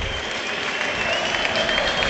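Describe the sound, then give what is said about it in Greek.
Applause from the official stands at OAKA stadium during a football match: steady, dense clapping blends with broad crowd noise and holds level and fairly loud throughout. “ενώ υπάρχουν χειροκροτήματα στα επίσημα του ΆΚΑ, καθώς βλέπω Πάντσο Ερνάν Γκόμεθ, Τζέρι Αγκράντ και τις λοιπές δυνάμεις από την μπασκετική ομάδα του Παναθηναϊκού.”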